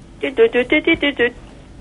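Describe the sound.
A voice imitates a telephone, deliberately badly, as part of a game show's phone-a-friend moment. It hums seven short, evenly spaced beeps at a steady mid pitch, then falls quiet.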